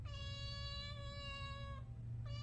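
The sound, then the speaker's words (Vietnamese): Cat meowing inside a wooden cabinet, after scratching at a cracked, hollowed spot in the cabinet floor. One long, steady, high-pitched meow is followed by the start of a second, over a low rumbling background. “Bất chợt con mèo nhảy vào trong tủ, đợt nó liên tiếp dùng chân cào vào phần lõm ở dưới đáy tủ rồi kêu lên vài tiếng.”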